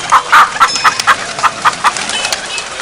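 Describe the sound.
Village chickens clucking, a run of many quick, short clucks in an uneven rhythm, fairly loud and with no voices.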